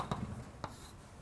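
Faint scratchy writing sounds as an integration theorem is written out, with two brief, sharper strokes standing out over low background noise.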